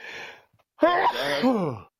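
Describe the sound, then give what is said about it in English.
A single sneeze: a breathy intake, then a loud, voiced, drawn-out burst that trails off with a groaning tone. “I'm going to sneeze. Hold on.”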